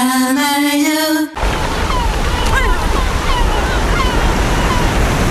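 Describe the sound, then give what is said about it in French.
Sea waves on the shore make a steady, broad rushing surf that runs without pause after a brief tonal musical opening that cuts off abruptly. “Nous avons réussi à vous emmener au bord de la mer en quelques secondes.”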